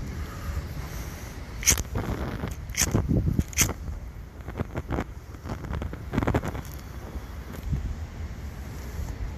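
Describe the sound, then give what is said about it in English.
Wind buffeting an outdoor microphone, a steady low rumble that runs through the whole stretch with scattered brief crackling bursts. “There's some wind, of course.”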